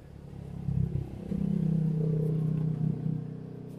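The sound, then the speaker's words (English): A car drives off, its engine a steady low rumble that swells after a short clattering start and holds fairly loud for a few seconds. “That's me driving off. Whee! Drive carefully!”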